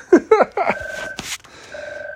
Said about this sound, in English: Yes, that's my phone in the background. Awesome. Completely ruining the recording.